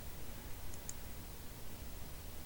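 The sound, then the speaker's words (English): Fingernails being bitten make two tiny, sharp, high clicks in quick succession. They are faint against a steady low hiss, and nobody speaks. “Oh, sorry, I was biting my fingernails. Bad habit.”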